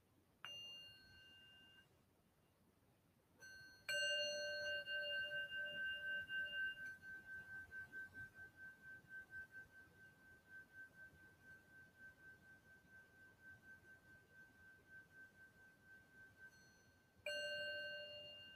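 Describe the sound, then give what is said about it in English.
A Buddhist-style singing bowl is struck three times. After the second strike, a bright, faint tone rings on for many seconds with a slow pulsing waver as it gradually decays. A final strike comes near the end. “And when I do that sound, that bowl, when I do that bowl, it's mixing a really unique sound,”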